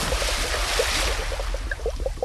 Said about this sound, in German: Wenn wir unsere Fackel jetzt also unter Wasser tauchen, dann nimmt sie sozusagen ihre eigene Sauerstoffflasche mit auf Tauchstation.